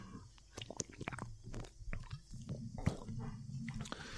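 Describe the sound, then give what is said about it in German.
Faint mouth sounds of someone sipping a malt drink: small slurps, wet clicks and a swallow, irregular and quiet, with no talk. “Und davor trinke ich noch einen Schluck Ulrikes Malz.”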